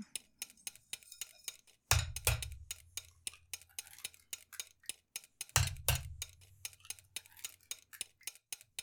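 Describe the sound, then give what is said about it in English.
Rhythmic clicking and clinking of mixing in a bowl as four eggs go in at once, with two heavier thumps standing out from the steady ticking and no voices. “Okay, stay at that speed. We're going to add in four eggs at one time.”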